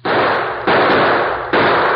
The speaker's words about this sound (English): Shot the glass out of the window.